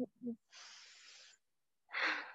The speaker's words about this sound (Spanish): Respira, respira.